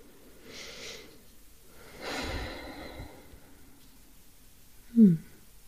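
Deep breathing during a guided relaxation exercise: two slow, soft, airy breaths, then after a quiet pause a short, louder snort-like sound near the end.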